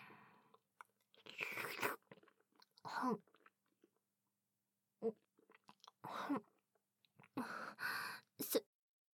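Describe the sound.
Someone chews and crunches a dish eaten with a fork. Several quiet bursts of crisp, moist mouth noise are separated by silent pauses.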